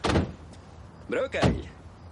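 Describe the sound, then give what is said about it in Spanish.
Police car doors thunk open and shut as four officers climb out, a few sharp door knocks and slams with a voice talking over them. “Se acerca un coche de la policía. Bajan cuatro agentes.”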